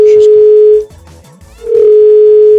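A telephone dial tone plays as a loud, steady, low-pitched hum in two stretches, broken by a short gap that holds other faint noises before the tone resumes.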